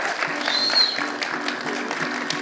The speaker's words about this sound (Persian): یه بار دیگه دست بزنید